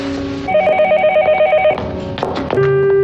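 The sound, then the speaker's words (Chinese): A telephone rings loudly with an electronic ringtone of bright, warbling beeping tones that repeat rapidly, then shifts to a different tone pattern near the end. “哦，对不起，我接个电话。”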